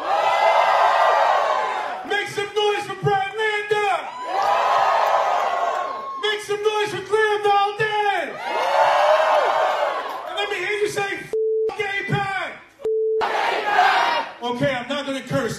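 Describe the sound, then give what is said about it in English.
A political rally crowd cheers and shouts loudly in repeated surging waves. Whoops and yells rise and fall over a steady roar of massed voices. “Make some noise for Daria Lisa!”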